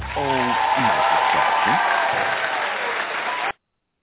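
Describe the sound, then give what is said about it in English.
Studio crowd cheering sound effect: loud, dense applause and cheering with a few rising whoops, held steady before cutting off abruptly. “Hold on, crowd. I didn't ask you to come in yet. Hold on.”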